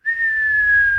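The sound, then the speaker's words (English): A voice imitates the whistle of a falling bomb: a single sustained, pure whistled tone that drifts slightly lower in pitch over about a second, loud and alone. “we think, oh, that's just the sound of a bomb. But actually, it's not. It's the sound of a whistle.”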